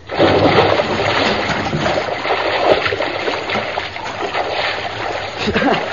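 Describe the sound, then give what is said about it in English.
Water splashing and churning from a dive into a lagoon, a loud continuous rush of sloshing water throughout. “One more dive. All right, one more dive.”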